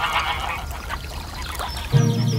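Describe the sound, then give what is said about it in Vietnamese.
Geese honking as a flock is herded home at dusk, a dense run of loud, harsh, overlapping honks that continue throughout, with a low steady hum joining near the end. “Họ coi đàn ngỗng tới khi trời chiều trở tối, rồi lại lùa đàn ngỗng về nhà.”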